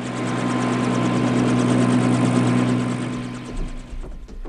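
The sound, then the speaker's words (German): A loud, steady aircraft engine drones on a strong low hum as the craft flies back to base. The sound falls away near the end, leaving a few faint knocks. “Und wir fliegen zurück zu unserer Einsatzbasis.”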